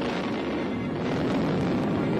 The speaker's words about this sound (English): At a Keithley quarry, they're getting ready for the big blast.